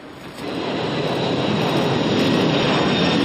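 Aircraft roar at an airport: a loud, broad engine rumble swells up after a moment and then holds steady and unbroken.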